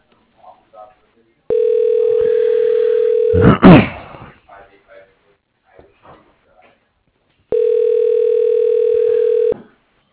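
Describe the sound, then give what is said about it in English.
An automated office directory phone line sounds two long, steady telephone tones, each lasting about two seconds. A burst of noise and a few faint clicks come between them. “Dialing.”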